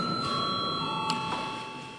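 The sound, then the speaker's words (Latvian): A session bell rings in a parliament chamber: one sustained, steady ringing tone holds at even loudness through the whole clip and eases off slightly toward the end. “lūdzu zvanu.”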